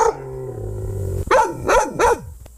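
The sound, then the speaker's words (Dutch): Dogs bark three times in quick succession, each bark sharp and loud, after a drawn-out whining, howl-like tone. “dit vonden de honden ervan.”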